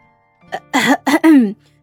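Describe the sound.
A voice performs a dry cough at a tense dinner table: a short, voiced, ahem-like sound in a few clipped bursts, alone with no background.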